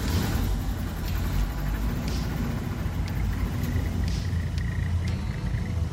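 A vehicle in a video game reverses and knocks over shelves, heard as a steady, loud, low engine rumble that holds level throughout with only faint ticks above it.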